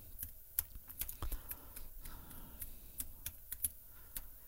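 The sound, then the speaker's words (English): Typing an email on a computer keyboard: many quick, faint key clicks in an uneven rhythm, with a few sharper taps, and no voices. “If you've got anything you want to email me, I'm just going to write the email in here.”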